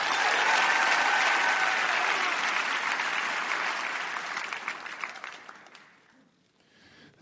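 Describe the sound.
An audience applauds to welcome author Michael Wolff, loud dense clapping that holds steady for several seconds, then thins to scattered claps and fades out near the end.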